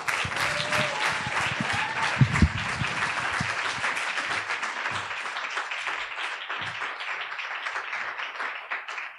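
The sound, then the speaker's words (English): Audience applause welcoming a speaker on stage for an evening talk: dense, steady clapping that carries on for about nine seconds and gradually thins toward the end. “Thanks for the cheer.”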